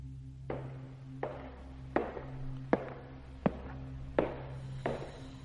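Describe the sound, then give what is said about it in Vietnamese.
Footsteps of someone walking in a room: about seven soft, evenly spaced taps at a steady walking pace over a faint low hum. “Lúc này bên tai của hắn lại truyền đến tiếng bước chân.”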